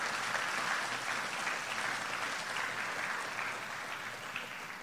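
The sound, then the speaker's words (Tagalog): Congregation applauding the Lord during a church service: dense, steady clapping from many hands, sustained throughout and easing slightly toward the end. “Pwede pang palakpakan natin ang Panginoon?”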